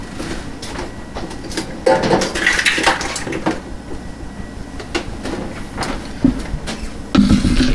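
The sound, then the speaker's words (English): Eggshells being dumped out, a few light clattering knocks and rattles over steady background noise. “Dump these eggshells out.”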